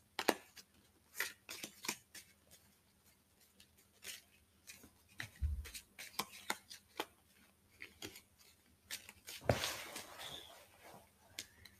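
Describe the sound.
Playing cards dealt into hands of seven for a game with coloured cards: many faint, irregular snaps and light slaps, quiet throughout, with a brief denser flurry near the end.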